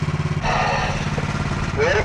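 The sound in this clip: A diver's air compressor starts up on a boat, settling into a steady, throbbing engine drone with a low, buzzy rhythm that shifts in tone just after it starts.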